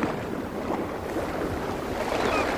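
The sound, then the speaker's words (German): Sail being set on a sailing boat, heard as a steady wash of wind and water noise with soft rustling, even in loudness throughout. “In Ordnung, Steuermann. Ich setz das Segel.”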